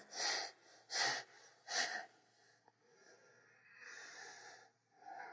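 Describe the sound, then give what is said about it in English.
Three sharp, forceful exhales made through a yoga pose to tighten the belly, evenly spaced and clearly separated, followed by softer, steady breathing. “So you do three sharp exhales.”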